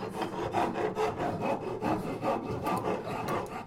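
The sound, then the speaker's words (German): A hand file rasps against wood in a woodworking workshop, producing a steady run of many back-and-forth strokes, each a gritty scraping burst of similar loudness, with no voices. “Und habt ihr es erraten? Es war eine Feile.”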